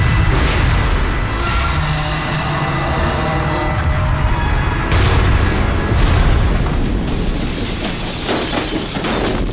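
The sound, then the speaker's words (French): Spacecraft crash landing: a loud, continuous roar of rumbling, crunching noise with shattering, booming impacts running through it, sustained and unbroken from start to finish. “Nous allons atterrir. Et atterrir, mais nous n'avons même pas commencé la manœuvre. Tu as tout à fait raison. Nous sommes en train de nous écraser.”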